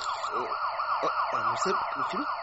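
A police car siren wails loudly and continuously, its pitch sweeping up and down in a quick, repeating pattern throughout.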